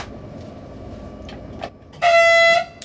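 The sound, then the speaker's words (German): A short train whistle sounds at a station before departure on a remote-controlled test run: a single steady, high, harmonic blast of about half a second, rising out of a low, quiet rumble. “ZP1 ist übrigens der kurze Pfeifton vor Fahrtbeginn jetzt im Bahnhof Schlettau”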